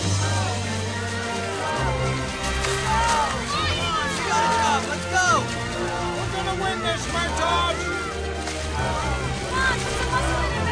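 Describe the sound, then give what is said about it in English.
Paddles splash and slosh as families row long canoes in a race on a lake, a steady churning of water under a hubbub of voices. “The families row their long canoes ahead.”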